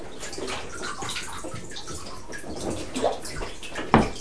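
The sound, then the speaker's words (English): A child splashes water in a bathtub, making steady sloshing and dripping with a few sharper splashes, the loudest near the end. “No, don't drink that water. It's yucky. You don't drink bath water,”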